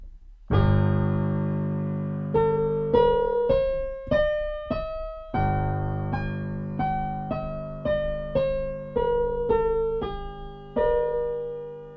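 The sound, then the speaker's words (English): A G harmonic minor scale played one note at a time, each clear tone struck and left to ring and decay. The notes climb step by step from a low opening note and then come back down in an even, unhurried rhythm. “so G minor harmonic sounds like this.”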